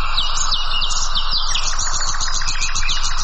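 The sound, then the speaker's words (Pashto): Birds sing in gardens and villages in a dense chorus of rapid, high-pitched chirps and trills. Several calls overlap and repeat steadily throughout over a low, constant background rumble. “هلته یې په ځانګړي ډول د مرغانو غږونو ته ورپام کېږي، خو داسې ښکاري چې دا اوازونه له طبیعته په کمېدو دي.”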